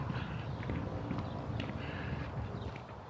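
Footsteps of a person walking along a shaded street, faint and evenly paced, repeating steadily over a soft background hiss.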